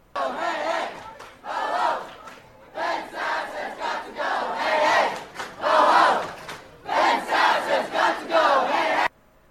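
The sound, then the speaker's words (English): Students chant in protest at a university where a candidate for university president is speaking: a loud crowd shouts rhythmic phrases in repeated bursts separated by short pauses. “Students did not technically interrupt the event, which was happening elsewhere, though they did attempt to chant loud enough to make it impossible for his event to go on.”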